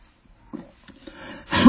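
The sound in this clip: Throat clearing from a scratchy throat: a few short, rough bursts followed by one louder, harsh rasp at the end, with no speech around it.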